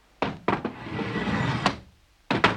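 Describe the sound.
Door bolts slid open: several sharp metallic clunks with a rough scraping slide between them, then a final pair of knocks.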